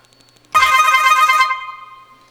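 A telephone rings for an incoming call: a single bright, harmonic electronic ring lasting about a second, then a short fading tail.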